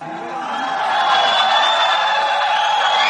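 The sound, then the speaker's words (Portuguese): A crowd at a business event in São Paulo boos President Dilma. The disapproving noise is a steady, dense roar that swells over the first second and then holds loud, with no single voice standing out. “Dilma foi vaiada em evento para empresários na capital de São Paulo. Apesar da reação negativa do público”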